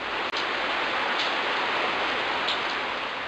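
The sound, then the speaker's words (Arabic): Rain falling in a storm, a steady, dense hiss with no breaks. “هبت ريح رطبة، أبرقت وأرعدت، وهطل المطر.”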